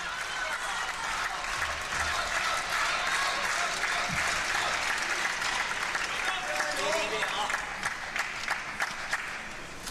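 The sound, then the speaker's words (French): A crowd in the Malmö Arena applauds near the end of a close match, dense continuous clapping with a voice talking over it. “Et il est encouragé par le public de cette Malmö Arena.”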